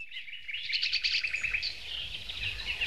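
Birds chirp at the opening of a rock song, a continuous stream of rapid, high-pitched tweets and trills, fairly loud and steady throughout.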